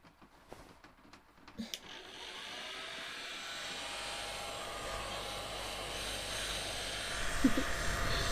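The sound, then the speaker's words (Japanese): A hair dryer blowing on wet hair: after a couple of seconds of quieter handling sounds, a loud, steady, broad whooshing rush switches on and continues to the end. “だけど髪が濡れたままなのはダメ。いらっしゃい、乾かしてあげるわ。”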